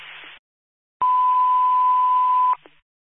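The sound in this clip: A fire dispatch radio alert tone: one long, steady, loud electronic beep held for about a second and a half over radio static, with short static bursts before and after it.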